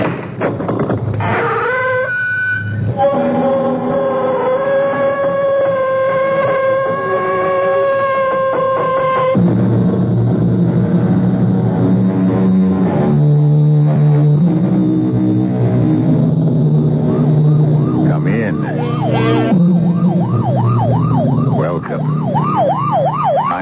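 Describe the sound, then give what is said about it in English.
Police car or ambulance siren wailing in sustained rising-and-falling sweeps, loud and continuous, with other steady tones layered alongside it. “Times I hear that sound, it still sends a chill down my spine. You know it's a police car or ambulance”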